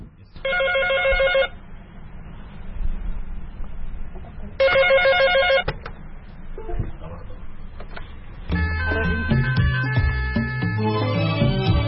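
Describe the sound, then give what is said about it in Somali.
A landline telephone rings in a room full of landline phones. Two separate bursts of bright, trilling electronic ringing stand out over a steady background with voices, and denser mixed sound follows later. “sumadda ugu horreysa ee qolkan ayaa ah telefoono fara badan oo kuwa laynka ah waxaana markiiba soo dhacay intii aan qolka ku jiray mid ka mid a telefoonada”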